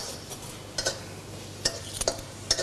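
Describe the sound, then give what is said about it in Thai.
Metal spatula scraping and clinking against a pan while stir-frying holy basil with chilies: a few sharp, irregular clacks over a soft, steady background hiss, with no talking. “ผัดไปอีกสักครู่”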